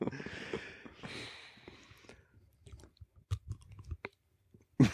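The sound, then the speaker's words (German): Someone chews a donut: faint, irregular, soft wet mouth sounds and small crunches come in uneven bursts, with a sharper click near the end and no talking. “dann esse ich mal einen Donut”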